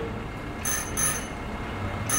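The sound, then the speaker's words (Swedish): A doorbell rings at an apartment door while the building is on fire. It sounds as two short, faint, high-pitched bell rings separated by a pause over a low, steady background hum. “Och så ringde det på min dörr samtidigt.”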